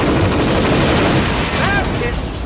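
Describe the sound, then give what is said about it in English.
Rapid gunfire from a remote firing station that sends off about a hundred bullets before the first hits the target. The shots blur into a loud, dense, continuous roar that holds steady throughout. “This is a remote firing station. They send off 100 bullets before the first one ever hits the target.”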